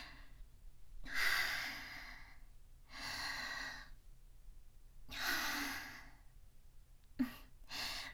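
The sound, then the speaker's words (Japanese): Slow, deep breaths are drawn in and let out, several breathy sighs of about a second each separated by quiet pauses, faint and with no talking. “深呼吸深呼吸”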